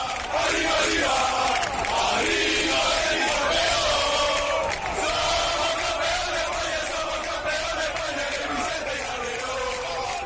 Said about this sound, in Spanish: Ese es el sonido de la afición del Betis.